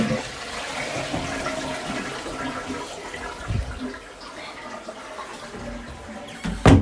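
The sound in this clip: A toilet flushing: a steady rush of water runs throughout, then a sharp, louder surge of water comes right at the end.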